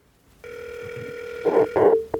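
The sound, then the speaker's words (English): Telephone call being placed: a steady dial tone hums for about a second and a half, then a few short keypad beeps follow in quick succession. “All right, I'm going to do the phone call now.”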